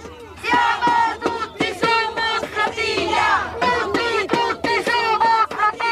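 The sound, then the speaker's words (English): Many voices shout rhythmic chants from a protest boat on the Tiber river in Rome. The chants come in loud, repeated bursts with a raised, cheering tone. “People wave at us from bridges and join in with the chants.”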